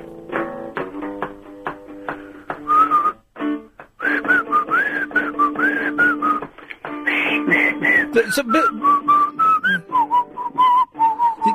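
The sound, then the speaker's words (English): A person whistles a tune in a breathy, wavering way, the melody sliding up and down through many sustained and quickly changing notes, with short pauses before the whistling resumes. “you're not very good at whistling.”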